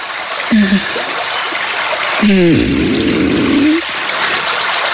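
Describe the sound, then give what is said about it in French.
Water trickles steadily throughout, with a short gurgle near the start and a longer, wavering bubbling gurgle through the middle. “On va monter le son de l'eau.”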